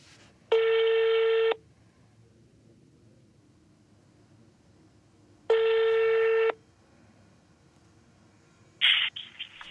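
Telephone ringback tone on an outgoing call, two buzzing one-second rings spaced about five seconds apart over a faint hiss, followed by a brief sharp burst at the end.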